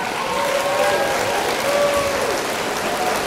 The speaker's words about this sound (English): You don't have like a got it sound? If I just do a little studio audience, pat me on the back.